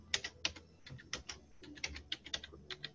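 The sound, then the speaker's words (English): Typing on a computer keyboard: many crisp keystrokes fall in irregular bursts, with short pauses between runs, over a faint low hum. “You gonna type your answer, though?”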